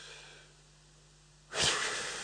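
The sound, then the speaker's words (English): A forceful breath blown out hard through the mouth during a breathing exercise in a class: after a near-silent pause comes a single loud, rushing gust of air that carries on to the end. “As deep as you can through your mouth and then breathe out as hard as you can.”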